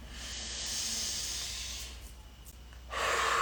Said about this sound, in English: I just want to take a deep breath before I channel here, just to kind of tune back in.